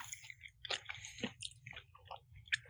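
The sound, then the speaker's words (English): Chewing on summer sausage: soft, moist squishing and bites in an uneven rhythm. A few sharper, slightly crunchy bursts stand out, and the whole sound is faint and close. “It tastes like a summer sausage.”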